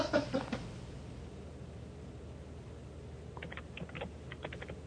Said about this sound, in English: Make sure you type it all.